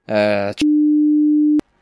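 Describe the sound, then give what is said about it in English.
A single censor beep, a steady, pure mid-pitched tone lasting about one second. It cuts in right after a short burst of speech and stops abruptly. “I have to beep that.”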